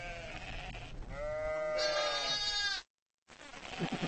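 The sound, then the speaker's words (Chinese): Sheep bleating, a ewe with her newborn lamb among nomadic herders' livestock: wavering, quavering bleats, one long and loud, followed by a brief silence and more animal sounds. “母羊细心地舔舐着自己的孩子，经过这番舔舐，小羊羔就会记住母亲的体味”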